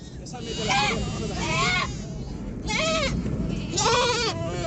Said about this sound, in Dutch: En ook talloze schapen, kippen en geiten zijn geëvacueerd.